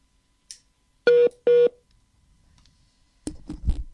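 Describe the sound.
A telephone is dialed to call Puerto Cisnes: a soft click, then two short, clear keypad tones in quick succession, a quiet gap, and a burst of rustling noise.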